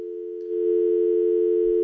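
A telephone dial tone hums as a steady, unbroken mid-pitched tone that grows a little louder after the first half second and then holds level while someone tries to dial.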